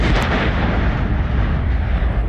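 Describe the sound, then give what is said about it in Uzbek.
Old Soviet-era aerial bombs are detonated among mountains in Kyrgyzstan's Kadamjay district. A loud, dense, low roar rumbles continuously throughout, with no clear separate blasts and no speech. “Qirg'izistonning Qadamjoy tumanidagi tog'lar orasida sovet ittifoqi paytidan qolib ketgan bombalar portlatildi.”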